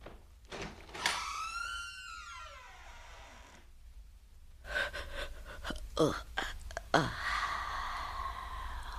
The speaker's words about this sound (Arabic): بس روح انت افتح الباب